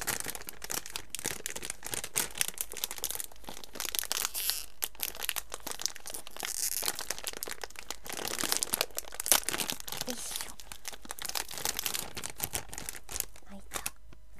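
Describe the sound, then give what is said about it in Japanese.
Sour-flavoured potato chips being eaten, giving many crisp crunches and crinkling, crackling bursts that run continuously and stay fairly faint throughout. “今からポテトチップスを食べます。”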